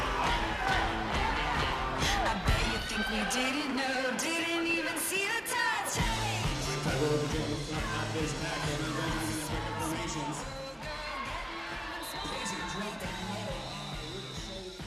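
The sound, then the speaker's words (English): Crowd noise at a roller derby game, a dense, steady roar of cheering and yelling with voices over it that stays loud throughout and eases slightly near the end. “What you just heard was a roller derby game.”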